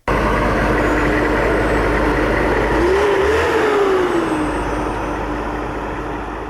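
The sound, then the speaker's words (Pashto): A tank's engine rumbles loud and steady throughout. Its pitch briefly climbs and falls back in the middle, and the level eases slightly toward the end. “په دې اړه نور تفصیل په دې رپورت کې چې د ټانګ په غږ پیلېږي.”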